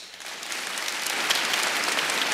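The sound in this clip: An audience at a church service applauds to welcome a speaker, the clapping starting lighter and swelling into a full, steady ovation.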